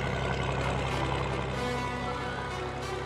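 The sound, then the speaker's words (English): A former World War II tank rumbles across rough country, its engine a steady, fairly faint low drone that holds without a break from start to finish. “today I came across the ultimate paddock basher, a former World War II tank rumbling across”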